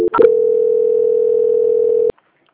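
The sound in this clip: A telephone call transfer tone sounds as a steady, loud, mid-pitched beep held for about two seconds after a brief click, then cuts off abruptly into silence.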